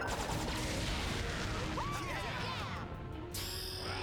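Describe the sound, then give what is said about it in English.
Sci-fi blaster fire from a spaceship's gyro blasters: a dense, loud, continuous barrage of rapid zapping bursts with whistling, swooping tones running through it for the whole stretch. “Whoa, we've got company. Gyro blasters online.”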